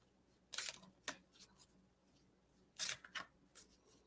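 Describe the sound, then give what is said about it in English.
A playing card is drawn from a deck, heard as a few brief, crisp snaps and slides separated by near silence, faint overall. “Let me pull you a card.”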